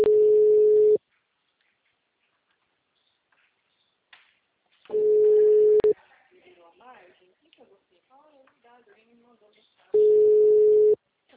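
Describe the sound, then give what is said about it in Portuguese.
A telephone ringback tone plays while a call is placed: three steady one-second beeps at a single mid pitch, spaced about four seconds apart, with faint muffled voice sounds in one gap. “Eu vou ligar agora então, tá?”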